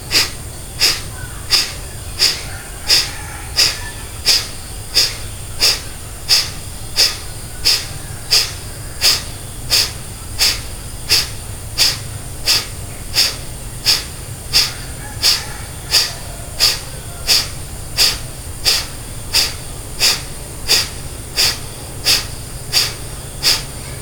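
Rhythmic breathing during a guided breathing exercise: many short, forceful breaths repeat at a quick, steady pace, each a hissy burst of air through the nose or mouth, with no talk over them.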